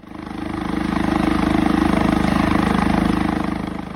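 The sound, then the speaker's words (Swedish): A helicopter hovers right outside a house on an island, its rotor beating in a rapid, even pulse over a loud engine drone that swells and then eases slightly. “Jag tittar ut genom fönsterrutan, precis utanför fönsterrutan är en helikopter.”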